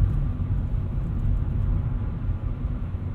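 Car driving off on a road in Birmingham, picked up through basic earbuds with built-in microphones: a steady, fairly loud low rumble of engine and road noise that continues without a break, with no talking.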